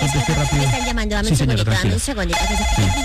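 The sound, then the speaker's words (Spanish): A telephone rings with a steady electronic tone that runs beneath continuous talking and stays present through most of the passage. “Me están llamando, dame un segundito.”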